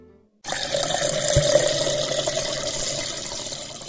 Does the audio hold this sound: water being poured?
yes